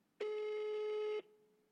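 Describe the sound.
A telephone line tone plays while a call is being placed: one steady, loud electronic tone rich in harmonics that holds for about a second, then cuts off, leaving faint line hiss.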